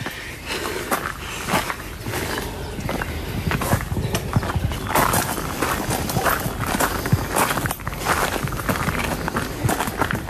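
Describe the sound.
People walk up the old Saint-Pierre hill, their footsteps forming a steady, dense stream of crunching impacts. The steps carry on without pause for the whole clip.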